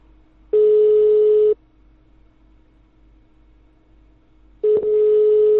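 Telephone ringback tone after a number is dialed: a steady mid-pitched electronic tone sounds for about a second, falls silent for a long pause over faint line hiss, then starts again.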